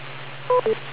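Two short electronic beep tones from an amateur radio setup sound in quick succession over a steady low hum.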